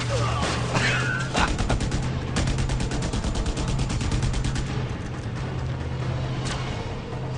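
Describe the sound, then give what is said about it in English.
Gunfire in a video game: dense, rapid bursts of shots that crackle almost without a break for several seconds, loud and rattling throughout. “they always shoot at the ground in the A team.”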